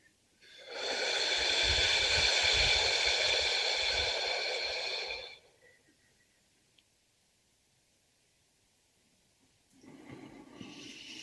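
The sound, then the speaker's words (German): A deep exhalation during a breathing exercise: a loud, steady, breathy rush lasting several seconds, then quiet, then the start of another breath near the end. “Jetzt machen wir das mal zusammen. Okay? Und ausatmen.”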